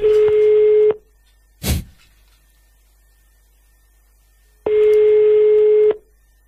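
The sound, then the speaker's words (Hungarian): A telephone line rings out as a radio morning show phones a listener: two long, steady mid-pitched tones separated by a few seconds of quiet, with one short noisy burst early in the gap. “Na, hívjuk már is a nap hallgatóját, és aztán elköszönünk.”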